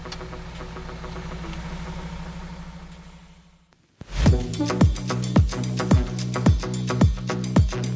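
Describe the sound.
A truck engine runs with a steady low droning hum that slowly fades away as the vehicle drives off. A sharp onset follows, then a series of rhythmic, regularly spaced thumping beats.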